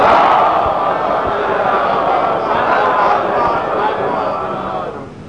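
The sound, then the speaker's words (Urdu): A crowd at a religious birth celebration chants salawat in unison in response to a call, a loud, sustained roar of many voices that fades toward the end. “نعرہ صلوات”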